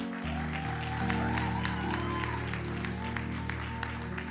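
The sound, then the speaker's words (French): Audience applause at an annual church conference, a bed of scattered claps over steady, sustained low tones that run through the whole clip at an even level. “Est-ce qu'on peut acclamer, s'il vous plaît”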